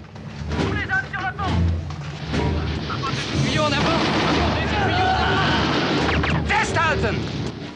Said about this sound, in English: The frogmen fire at those around them in order to secure their path. At the side of the vessel, amidst a volley of shots,